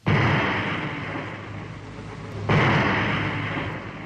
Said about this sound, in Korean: 지뢰의 도화선이 움쩍하자 모든 지뢰가 놈들 무리 속에서 꽝꽝 터졌다.